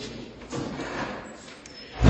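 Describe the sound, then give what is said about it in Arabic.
A door being closed during a lecture. Soft shuffling leads into one loud, low thud right at the end. “معلش ما سمعت، ممكن تقفل الباب ده بس بسرعه.”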